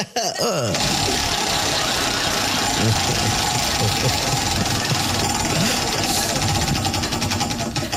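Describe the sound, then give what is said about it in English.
Rapid mechanical clatter of a prize wheel being spun during a game segment, a dense, steady ticking that runs loud and unbroken through the whole clip. “get up here and spin that wheel”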